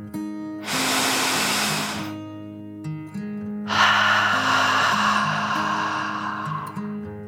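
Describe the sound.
A deep breath: a long, loud, breathy inhale followed after a pause by an even longer rushing exhale, both sounding over soft, sustained background music tones.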